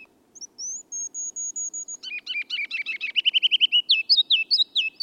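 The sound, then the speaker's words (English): Spring song of a ruby-crowned kinglet: a thin, high series of notes, then a jumbled twittering passage that builds into loud, quickly repeated bouncy phrases at the end, with no other sounds. “The ruby-crowned kinglet tunes up his spring song only in the lowlands.”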